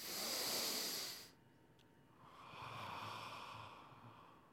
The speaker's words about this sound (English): Take a big breath, big in through the nose.